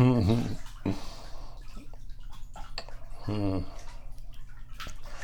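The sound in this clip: Bath water splashing and trickling as a father washes a baby, with light scattered splashes and drips, and two short bursts of voice sounds, one at the start and one partway through.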